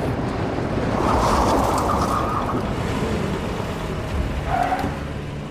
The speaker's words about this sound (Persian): میپیچه جلوی ماشین اردلان.